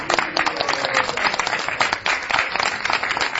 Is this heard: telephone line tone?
no